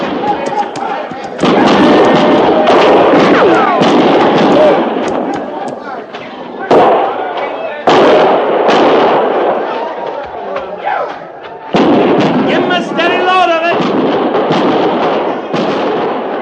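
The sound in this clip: Gunfire and artillery crash through a radio drama battle scene at Fort Laramie, with repeated loud bursts and booms in dense clusters separated by brief lulls, while voices shout over the din.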